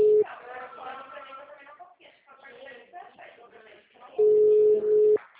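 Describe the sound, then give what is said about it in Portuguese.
A telephone ringback tone sounds on an unanswered call to a city hall office. A brief steady tone opens, people talk over a line in between, and one loud, even, roughly one-second tone returns near the end. “tô ligando na prefeitura e ninguém atende.”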